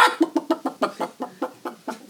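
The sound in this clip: A hen clucking in a rapid, even series of many short, throaty clucks, moderately loud and alone with no other sounds.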